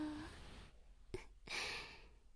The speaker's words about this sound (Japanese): こうしてお互いの吐息が聞こえるくらいの距離まで近づいちゃうと